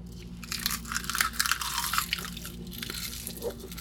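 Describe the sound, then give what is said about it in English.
Crunching and chewing of a garlic-roasted snack leaf: many crisp, crackly bites in quick succession, loudest in the middle and trailing off toward the end, with no talking. “All right, I will choose a leaf of Sigmund the Sea Monster here. And this is roasted in garlic, supposedly.”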